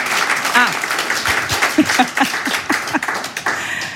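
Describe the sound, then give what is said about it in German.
Welcoming applause from an audience greets a German-Iranian artist, a dense, steady wash of clapping that runs the full length while a voice speaks over it. “Ich bitte Sie um einen herzlichen Willkommensapplaus für die deutsch-iranische Künstlerin Bettina Pustschi.”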